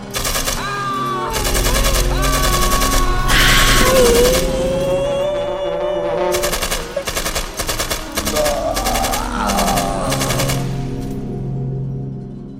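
Gunfire at a gate: loud, rapid bursts of shots, several strings of fast repeated cracks, with sustained tonal sounds running underneath.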